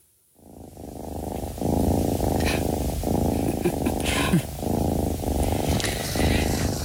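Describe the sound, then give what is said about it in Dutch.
A cat purrs steadily: a soft, low, rumbling drone that pulses in many even cycles as the cat breathes in and out, continuous and alone for several seconds. “Ja, ik vroeg je naar het geluid van je jeugd. En toen zei je, ja, dat is een spinnende kat.”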